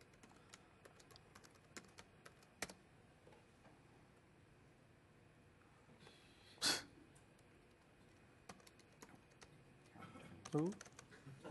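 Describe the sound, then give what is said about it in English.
A password is typed on a computer keyboard in faint, scattered key taps, broken by a couple of louder thumps in the middle and near the end. “Okay, I will connect to the right rig. Okay, if I can type my password correctly.”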